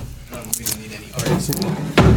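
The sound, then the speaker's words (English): A door closes and is locked: a few dull knocks and thumps, the loudest and heaviest at the end, mixed with people talking throughout. “You want to lock the door behind? Yeah, sure.”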